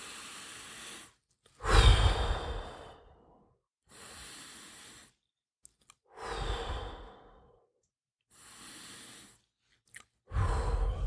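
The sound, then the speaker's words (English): Three deep breaths with no talk: each cycle pairs a softer inhale with a loud, sighing exhale, and the last exhale is cut off at the end. “first thing I do is I take 3 deep breaths.”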